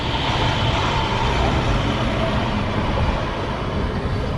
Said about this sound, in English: You can hear a big truck sneaking up behind me.